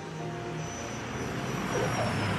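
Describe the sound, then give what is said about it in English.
A small plane flying in, with a steady engine drone that grows slightly louder toward the end. “It's said to be 10 times more biodiverse than the Great Barrier Reef. Reggie Yates is flying in to dive a little deeper.”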